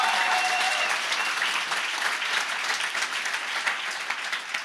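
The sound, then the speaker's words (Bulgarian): A church audience clapping: dense, continuous applause holds at a steady, full level for the whole stretch, with no pauses. “ако ръкопляскаш, ръкопляскай, като че наистина вярваш.”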